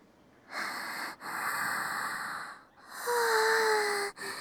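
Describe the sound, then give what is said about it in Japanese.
A deep breath drawn and let out: long, airy rushes of breath, loud and unbroken, the later one carrying a thin whistling tone. It is heard alone, with no talk. “深呼吸。”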